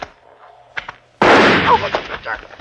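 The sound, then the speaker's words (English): A single loud gunshot sound effect in a radio drama bursts out after a quieter stretch, then rings and decays over the following second. “I shot him in the back of the head. I knew he was dead before his body slipped to the ground.”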